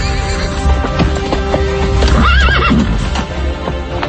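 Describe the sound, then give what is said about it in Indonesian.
A horse whinnies loudly while its hooves clip-clop steadily as it is hurriedly ridden out of a yard; the wavering neigh rises and falls in the middle, over continuous, loud hoofbeats. “Itulah sebabnya buru-buru dia menaiki kudanya dan kabur dari halaman.”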